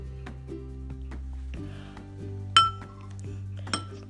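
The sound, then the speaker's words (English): A spoon clinks against a dish while plain yogurt and applesauce are mixed: two sharp, bright clinks stand out among lighter taps over a steady low hum. “Okay, I got the spoon.”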